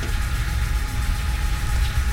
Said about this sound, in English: there's the lever we need to refuel, so we're gonna hit shift and T. I let go of the shift key. Refueling fusion drive from fuel storage bay 1. Please wait.